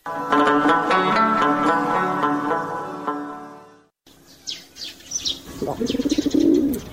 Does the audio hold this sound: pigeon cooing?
yes